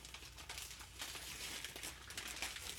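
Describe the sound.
Wrapping paper crinkling as a gift is unwrapped, a faint, continuous run of irregular crisp rustles and crackles with no talking.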